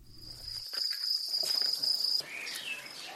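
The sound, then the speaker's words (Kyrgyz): Crickets chirping at a cricket farm where the insects are raised to be ground into flour: a steady high trill holds for about two seconds, then cuts off, leaving fainter scattered chirps. “Ну, как бы конечная цель, нам надо из этих сверчков делать муку.”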